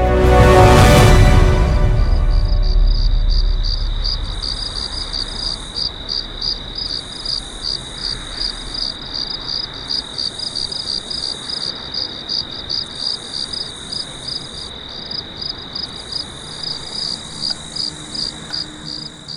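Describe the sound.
Crickets chirping at night, a steady high-pitched pulsing trill that repeats in quick regular bursts throughout, alone without voices.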